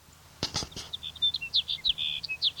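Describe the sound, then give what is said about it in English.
Sage sparrow song: a series of thin, high chirping notes repeated in a quick, uneven run, faint and alone, preceded by a few brief soft clicks. “Here's sage sparrow number two.”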